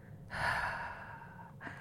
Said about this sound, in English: And then we're going to exhale with an open mouth, through an open mouth. And so it's going to sound something like this.